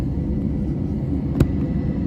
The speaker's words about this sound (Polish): A zapomniałem, że trzeba już nagrać start. Tak już przygotowujemy się do startu, jest już na pasie.